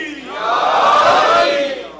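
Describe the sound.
Congregation at a religious sermon roaring its answer to the Naara-e-Haidari slogan, a single loud shout of many voices that swells and then trails off.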